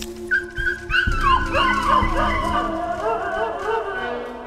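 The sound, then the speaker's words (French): A dog whines and whimpers in a continuous stream of high, wavering cries that rise and fall in pitch over a low, steady rumble. “Allez, viens le chien, viens.”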